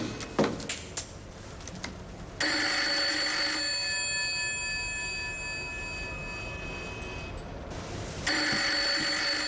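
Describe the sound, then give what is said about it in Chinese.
A telephone rings in a villa at night, a bright, continuous electric bell trill lasting several seconds, then a brief break before the ringing starts again. Faint clicks come before the first ring, and no voices are heard. “是狼本的电话，接吗？”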